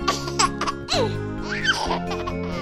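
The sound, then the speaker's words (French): A baby laughs in several bright, high-pitched giggling bursts, with breathy squeals rising and falling between short pauses. “Un bébé qui rit.”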